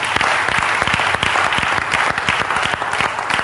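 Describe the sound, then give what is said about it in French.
Applause from a church audience praising the Lord during a prayer service: dense, steady clapping that stays loud and even for the whole stretch, with sharp individual claps standing out. “Acclamez vous-même le Seigneur.”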